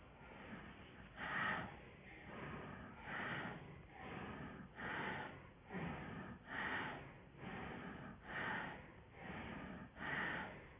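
Breathing during a guided breathing exercise: a steady series of soft, airy breaths, each swelling and fading in an even rhythm, with no talking.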